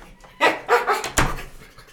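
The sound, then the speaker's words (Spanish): A dog gives a few short, sharp barks in quick succession, loud against a quiet background. “Ahora vengo, voy a bajar al perro.”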